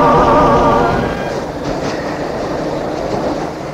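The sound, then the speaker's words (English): A Glasgow subway train running: a loud, dense rumble with a rattling clatter of wheels, strongest at the start and then easing slightly into a steady roar. “West Street, Shields Road, the train goes round and round.”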